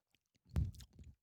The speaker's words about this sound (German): Trinken wir jetzt mal einen Bergbock Hell.